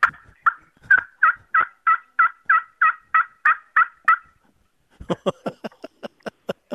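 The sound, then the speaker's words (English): A turkey gobbles in a long, steady run of many evenly spaced, rattling pulses. After a pause comes a quicker series of sharper, clicky calls. “But yes, that sound means it is getting close to turkey time.”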